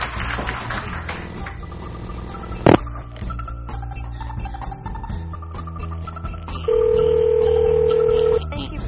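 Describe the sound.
A telephone call is placed. A single steady ringback tone sounds for under two seconds near the end, over a busy background.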